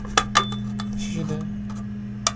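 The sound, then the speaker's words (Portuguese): Raffle papers for a sweets prize being pulled from the bottom of a cup, giving a few light clinks and taps against the cup over a steady low hum. “Deixa tirar aqui de dentro. Colou tudo no fundo do copo.”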